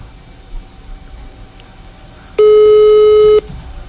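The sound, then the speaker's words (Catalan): A telephone tone sounds while a call is being placed, a single loud, steady pure beep lasting about a second, coming after quiet background noise. “Vaig a trucar a l'Eudald”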